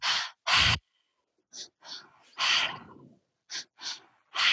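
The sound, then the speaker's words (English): Mouth-only breathing in a three-part pattern: two short sharp inhales followed by one longer exhale, repeated a few times. Breathy bursts separated by brief pauses, with no talking. “So the breath is called the tri-active breath. So it's a three-part breath. and we're only going to be using the mouth. So it's two breaths in and one breath out. So it sounds like this.”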